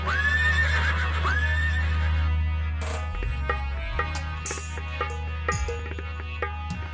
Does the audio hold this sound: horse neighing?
yes